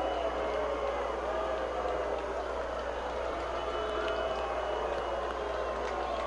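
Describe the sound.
An audience applauds to welcome the governor of Connecticut, a dense and even wash of clapping that holds at a steady level from start to end, with crowd voices blended in.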